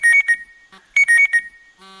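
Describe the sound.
An alarm clock going off: shrill, high electronic beeps come in quick repeated bursts, a pause, then another burst, ending with a steadier buzzing electronic tone, loud and with no talk.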